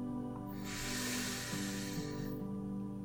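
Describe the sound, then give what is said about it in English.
A deep cleansing breath drawn in slowly, a soft breathy hiss that swells and fades once over a steady, faint musical drone. “Let's begin with that nice cleansing breath all the way in”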